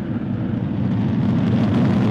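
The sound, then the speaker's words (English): A Falcon rocket lifts off carrying the Dragon capsule on the Crew 13 mission to the International Space Station, a loud, continuous low roar and rumble that holds steady throughout. “Two, one, ignition, and liftoff. Go Falcon, go Dragon, and go Crew 13.”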